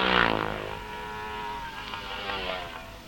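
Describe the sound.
Engine roar of racing motorcycles in a short-circuit race as riders take the checkered flag at the finish line; a loud, harmonic drone that peaks at the start, then holds steady with shifting engine notes.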